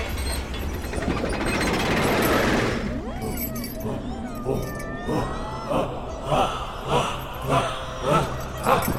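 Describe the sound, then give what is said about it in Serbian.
Mechanical ratcheting and clanking of a metal-melting machine, a sound effect in a Serbian radio play. A loud rushing, grinding noise fills the first three seconds, then gives way to many regular, rhythmic ratchet-like pulses that continue to the end. “Sad vas vodimo na mesto gde se kažnjava. Mašina za topljenje metala.”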